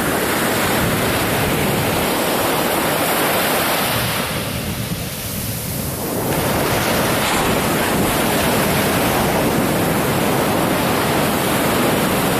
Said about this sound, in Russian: Вы слышите шум прибоя? Ничего такого не случилось, просто волна.